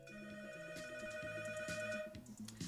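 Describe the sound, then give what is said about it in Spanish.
An incoming-call ringtone on a telephone plays a steady, melodic electronic tune of repeating high notes that rings loudly and continuously throughout, with no voices. “¡Wow! ¿Quién está llamando ahí? A ver. Doris Martínez llamando, no puede ser. Vamos a atender ya rápidamente esta llamada.”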